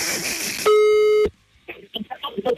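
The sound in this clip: A telephone ringing tone sounds as a call is dialed: one steady, bright electronic tone lasting about half a second, then people talking.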